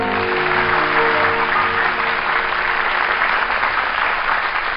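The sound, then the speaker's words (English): A studio audience applauds the welcome of a guest singer with steady, even clapping that holds at the same level throughout and has a slightly muffled, band-limited quality. “There's a big welcome from our studio audience”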